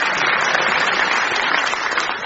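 A round of applause at the end of a quiz-show round: steady, dense clapping from a group that holds at an even level throughout and then eases off slightly at the close.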